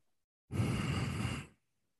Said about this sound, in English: like whistling nose breathing. And it's driving me bananas.